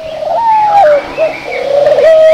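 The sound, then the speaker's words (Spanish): Pigeon cooing: soft, warbling low coos that run almost continuously, with a brief dip partway through before the calls swell again. No voices. “¿Te has preguntado alguna vez por qué las palomas caminan de una forma tan chistosa?”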